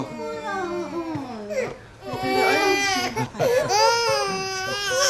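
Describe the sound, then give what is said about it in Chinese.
A baby cries loudly in long, wailing bursts that waver up and down in pitch, with short catches of breath between them. “别哭了啊”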